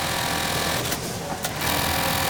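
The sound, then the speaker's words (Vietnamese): New-model sewing machines whir in a garment workshop, a loud, continuous mechanical buzz that dips briefly in the middle before running on steadily. “Những chiếc máy may ở đây đều là những chiếc máy đời mới, giúp công nhân giảm bớt sức lao động.”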